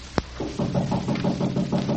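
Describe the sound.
Knocking on a door: one sharp, crisp rap, then a run of duller, evenly paced thuds that keep a steady rhythm to the end.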